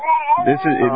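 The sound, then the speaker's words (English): An infant cries in high, wavering wails throughout, with a man's voice talking over the second half. “I want to apologize to your audience if you hear a crying baby. That's my godson.”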